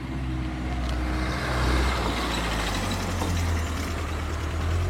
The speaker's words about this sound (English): So, hope the dog is not on the road. Here comes a car.